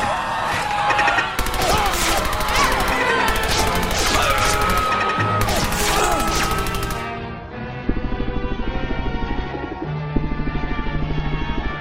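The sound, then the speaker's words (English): Gunfire from turrets dropping out of the ceiling in a video game, a dense, continuous barrage of loud crashing shots and impacts that thins out into steadier rapid bursts in the latter part. “Those turrets are coming out of the ceiling! Everyone get behind something!”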